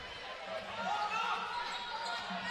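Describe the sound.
A basketball is dribbled on the court during the third quarter of a game with Mountain Home leading. The bouncing is faint and runs under continuous play-by-play commentary and a steady crowd murmur.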